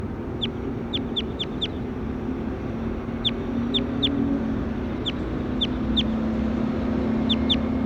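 Bird calls ring out in a recording session: many short, high chirps, some in quick bunches and others spaced apart, over a steady low background hum.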